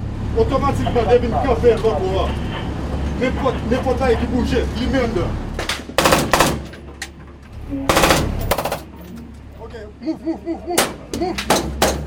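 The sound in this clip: Gunfire during gang violence in the streets and alleys of Haiti: several loud clusters of sharp, rapid shots that break over a continuous low rumble while people talk.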